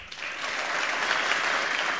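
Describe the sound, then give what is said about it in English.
Dense, steady applause from state legislators, with Republicans standing to applaud a governor's directive on violent firearm offenders, a continuous wash of clapping that holds at an even level throughout. “Republican legislators stood to applaud his directive while Democrats remained seated.”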